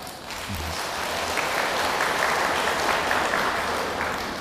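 Audience applause at a Vietnamese community gathering on a day of mindfulness: dense, steady clapping from many people, sustained and fairly loud for about four seconds without a break.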